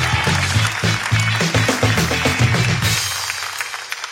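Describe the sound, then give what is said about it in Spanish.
An audience at a live comedy show applauding loudly, with a thick burst of clapping that holds steady and then thins out near the end. “¡Un fuerte aplauso!”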